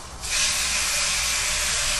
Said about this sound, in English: excuse the sizzling of the pan. Y'all are going to hear that for a while in the background.